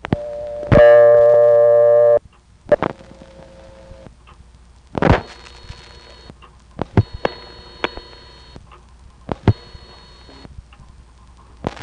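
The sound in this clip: Telephone dialing tones on a line while calling trunks in a phone network: a steady tone lasting about a second and a half, then many short tone bursts and clicks spread irregularly through the rest.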